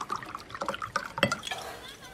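Water is poured into a glass as the final third of a mixed drink, producing short splashy gurgles with a few brighter spikes over about two seconds.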